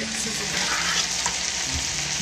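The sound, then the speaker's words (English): Garlic fries in a pan with a steady, bright sizzle that crackles continuously at a moderate level and stays even throughout, with no talk. “Alright, now comes the part where we are frying up these bad boys. Ooh, look at all that garlic on there.”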